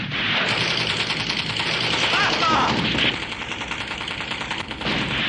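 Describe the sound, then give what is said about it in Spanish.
A machine gun fires in a battle scene from a 1962 adventure film, a dense, continuous rattle of rapid shots that keeps going throughout and grows slightly softer after about three seconds. “La ametralladora sigue disparando a pesar de que ya nadie responde al fuego.”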